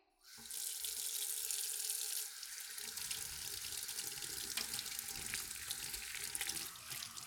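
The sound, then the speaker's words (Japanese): Running tap water rinses off suds after washing. A soft, steady rushing hiss starts abruptly, then its flow changes slightly and continues evenly to the end. “それじゃあ流しちゃうわね。”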